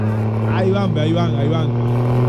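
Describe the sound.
A turbocharged car engine revs during a motor race, a steady low droning hum with shifting overtones running beneath excited talk.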